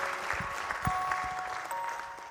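Audience applause at a celebration: a steady patter of clapping with a few sharper, louder claps, a faint sustained tone underneath, easing off slightly at the end.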